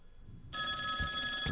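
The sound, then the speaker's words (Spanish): A telephone call rings unanswered. A steady electronic ring starts about a third of the way in and sounds continuously to the end, loud over faint low background noise. “23 segundos de llamada. Ni Dios lo coge.”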